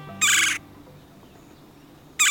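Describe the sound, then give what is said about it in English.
Red-bellied woodpecker calls: two short, harsh, raspy bursts separated by a long pause, loud and alone, the second cut off at the end. “As woodpeckers go, they're bold and conspicuous, thriving even in backyards and city parks east of the Mississippi. And red-bellied woodpeckers are unabashedly vocal.”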